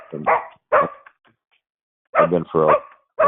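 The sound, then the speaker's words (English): Dogs bark at someone arriving home: a few sharp, loud barks in two quick clusters with a short pause between them. “Is this arriving home, normal barking? Or... Anyway, Okay, sorry. I got to take the dogs in.”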